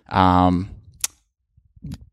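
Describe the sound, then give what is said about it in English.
Sharp, isolated key clicks from the clicky keyboard of a 2016 MacBook Pro, a few light taps coming after a brief spoken voice. “Yeah, you're typing. Okay. You're typing. Did you buy a clicky keyboard? No. That's just the keys on my 2016 MacBook Pro. But, I mean, sorry, yes, it is a clicky keyboard.”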